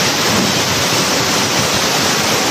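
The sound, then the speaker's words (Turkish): Muddy floodwater rushes through the narrow streets of Azilal in central Morocco during a flood, making a loud, steady, unbroken roar of churning water. “Kısa sürede dar sokaklar çamurlu sel sularıyla doldu.”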